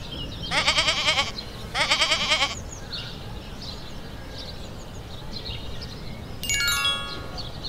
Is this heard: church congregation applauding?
no